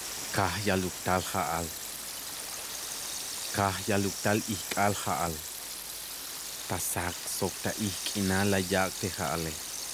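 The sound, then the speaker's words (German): Steady hissing rain, a black rain falling day and night in a radio drama, runs beneath a speaking voice as a constant soft wash. “Die Erde verdunkelte sich und es begann ein schwarzer Regen. Tagregen, Nachtregen.”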